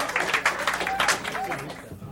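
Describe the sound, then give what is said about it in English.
Audience applause and cheering for a comedian being introduced on stage: clapping runs throughout, with a few high whoops rising above it. “Clap your hands for the fabulous Mr.”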